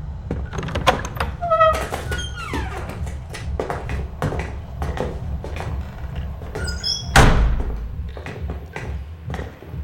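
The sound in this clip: A trapdoor leading down into a cellar opens amid a series of knocks, taps and thumps, with short creaking sweeps and one louder, heavy thud near the end.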